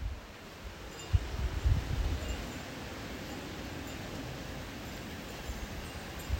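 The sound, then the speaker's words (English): Wind buffets a microphone in a steady, rushing rumble, with a few louder gusts near the start before it settles into an even roar. “Let them hear the wind a little bit. Bring it closer to it.”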